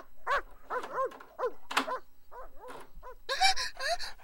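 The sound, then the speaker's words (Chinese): A male wolfdog in heat gives many short, high-pitched yelping barks and whines in quick, irregular succession, each a bright tonal cry, with the loudest, harshest burst of yelps near the end. “这是狼狗，你放它放进来做什么？”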